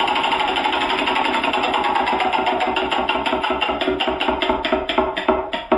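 A prize wheel spins, and its pointer ticks rapidly and evenly over the pegs. The clicks slowly spread apart toward the end as the wheel loses speed.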